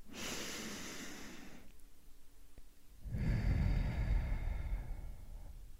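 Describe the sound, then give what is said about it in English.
A deep breath in and out: a hissing inhale, a short pause, then a longer, louder and lower breathy exhale, with no talking. “Let's take a deep breath in and continue.”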